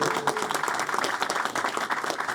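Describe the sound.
Applause for the nurses at a hospital gathering: dense, steady clapping from a crowd that holds at an even level throughout.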